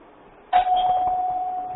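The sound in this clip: A doorbell rings once: a sudden bright chime that holds a steady pure tone and slowly fades after a quiet start.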